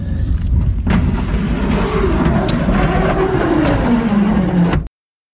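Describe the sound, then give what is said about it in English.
A car driving fast through fire on a winding mountain road in the Santa Monica Mountains, its loud, continuous engine roar droning higher, then sinking lower before cutting off abruptly. “That's a woman driving straight through fire on a winding and treacherous road in the Santa Monica Mountains.”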